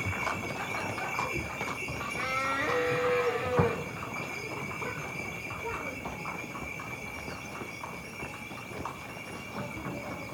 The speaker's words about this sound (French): Elle est passée près, la charrette.